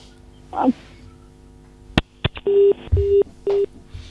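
Telephone line tones follow a cut-off call: a sharp click or two, then three short, steady mid-pitched beeps at even spacing, clear and loud.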